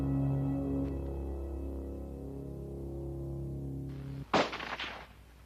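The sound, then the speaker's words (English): A hunter's rifle fires at a wildebeest on a Botswana safari: a sharp, loud crack with a brief rattling tail cuts in near the end, after a long, steady low hum. “shoots twice, hitting the wildebeest in the lungs. It still runs before collapsing.”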